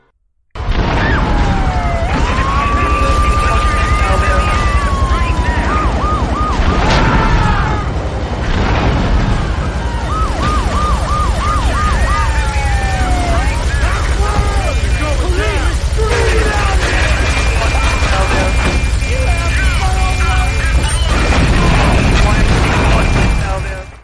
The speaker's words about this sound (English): Oh man, what could this fun-filled afternoon on the town be? That can only be the cacophony caused by spawning a tank